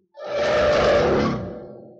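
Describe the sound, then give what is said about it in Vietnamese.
A monster's roar: one rough, sustained growling blast that swells quickly, holds for about a second, then slowly trails off, with no voices around it. “Quái vật Khôi Lạc gầm lên một tiếng, vọt nhanh tới.”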